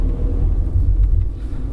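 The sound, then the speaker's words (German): A car drives through a town street, giving a steady low rumble of engine and road noise throughout, with no talk. “wie wir in Holzgerling durch die Straße fahren”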